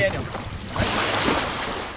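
Small motorboat speeding across the Tennessee River: a steady rush of water and wind noise with a low engine drone, holding loud and even throughout.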